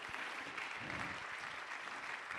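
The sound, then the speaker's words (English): Congregation clapping hands during a church service, a faint, dense and continuous patter of many hands that stays even from start to finish. “Somebody clap your hands and lift your voice.”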